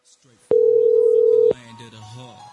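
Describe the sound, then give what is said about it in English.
An outgoing telephone call rings with a single steady ringback tone lasting about a second, loud and even, with faint voice-like sounds before and after it. “Just a bunch of ringing on the live shows.”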